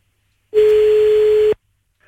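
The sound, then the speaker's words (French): A single steady telephone tone sounds while a radio host places a call to a listener, one clean sustained beep lasting about a second and then cutting off into silence. “Alors, on y va, on va l'appeler, c'est parti.”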